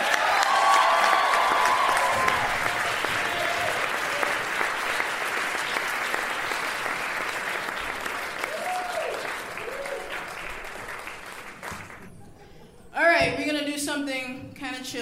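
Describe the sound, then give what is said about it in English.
An audience applauds a brass band with sustained, dense clapping that slowly thins out. A voice starts speaking near the end. “Please put your hands together for the Pitch Black Brass Band.”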